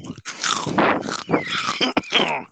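A man crunches food close to his microphone while eating, making many loud, irregular crunching and biting bursts with brief gaps between them.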